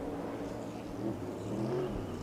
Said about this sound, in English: Chris Buescher now is leaving his pit box after getting some service on that Ford Mustang. He will race his way back out onto the racetrack.